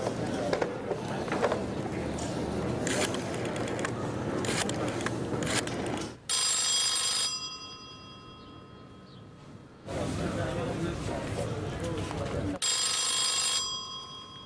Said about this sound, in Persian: من اگه اجازه بدین یه زنگ به تهران بزنم